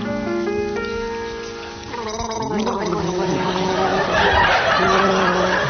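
Two people gargling a song on a comedy game show: a wet, bubbling gurgle carrying a tuneful pitch at first, then turning rougher and noisier, continuous and fairly loud throughout.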